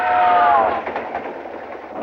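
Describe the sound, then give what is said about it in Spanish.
A passenger train runs on its rails with a steady, broad rumble. A clear high tone opens the sound and fades out early on. “Sale a la plataforma posterior del tren.”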